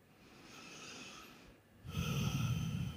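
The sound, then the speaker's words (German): Slow, deep breathing in and out during a calm relaxation exercise: two long airy breaths, the second noticeably louder and fuller, with no talking. “Und atme tief ein und aus.”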